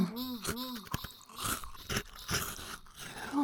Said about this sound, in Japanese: 全部噛み砕かれて、抜けて、もぐも、シャクシャク、咀嚼されて、飲み込まれて